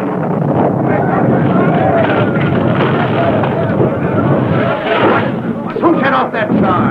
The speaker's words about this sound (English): Suddenly, from the direction of number 3 tunnel, there came the sound of a powerful blast.